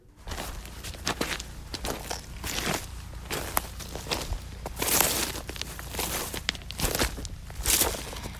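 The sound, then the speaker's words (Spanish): Footsteps crunch over gravel and earth on a walk at a winery, a steady series of gritty, crackling treads of varying strength across the whole clip, with no voices. “Son pasos, Pachi. Hay una cierta gravilla, tierra.”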